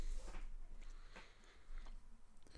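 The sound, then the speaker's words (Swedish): Someone chewing sweets, a faint series of soft, moist crunches and bites coming in irregular bursts, with quiet gaps between them. “Vill du ha lite godis? Jag käkar dem.”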